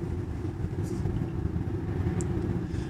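An Audi car drives along a country road in dynamic mode. Its engine makes a steady, low rumble with a constant road drone and no clear changes in pitch.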